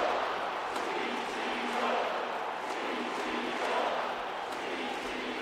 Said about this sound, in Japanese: すでに観客はスタンディングオベーション球場にイチローコールが響く